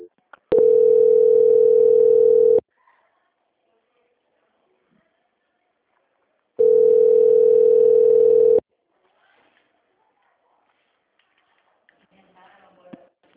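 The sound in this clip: Phone-line ringback tones during a call transfer: two steady, even mid-pitched tones, each about two seconds long and separated by a four-second silence, with faint scattered noises afterward.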